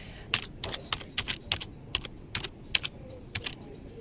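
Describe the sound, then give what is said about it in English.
Typing on a computer keyboard into a search engine: many quick, crisp key clicks in uneven bursts with short pauses between them, fairly clear above a quiet background. “now I've just typed in YouTube”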